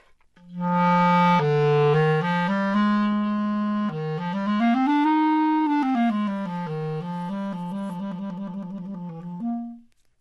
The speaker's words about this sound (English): while you would hear in a more of a classical setting, the clarinet in the lower register would sound like that.